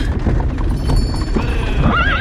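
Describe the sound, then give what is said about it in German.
Horses neigh near a halted carriage in fog, over a constant low rumble with scattered hoof clops, and a loud whinny wavers up and down in pitch near the end. “Lass mir meine Pferde in Ruhe!”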